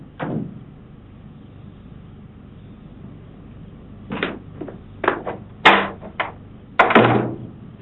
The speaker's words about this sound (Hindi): दरवाजा खराब है। जी हाँ, खराब है। मैं खुद ही बंद करता हूँ इसे।